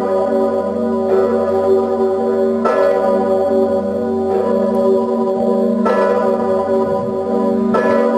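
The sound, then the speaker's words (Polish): A large royal cathedral church bell tolls in five heavy, evenly spaced strokes. Each stroke rings out over a deep, continuous humming resonance that carries steadily between the strikes. “Właśnie jak słyszymy, brzmi dzwon Zygmunt”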